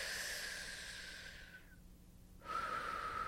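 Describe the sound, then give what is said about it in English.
A deep breath during a guided energy exercise: a long, soft, airy rush of breath, a short silent pause, then another faint breathy rush. “Take a deep breath.”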